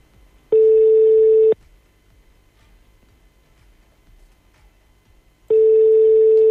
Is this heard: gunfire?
no